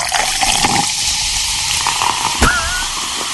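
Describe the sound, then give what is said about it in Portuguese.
Cheap champagne is opened and poured so that it foams heavily, producing a steady, loud hissing rush of liquid and fizz with one sharp transient near the end. “Vou abrir uma champanhe aqui, tá bom? Bora! Deixa eu abrir aqui.”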